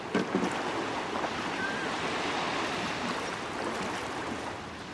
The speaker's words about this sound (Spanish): El mar está en calma. Sobre sus olas de plata se desliza la barca del arponero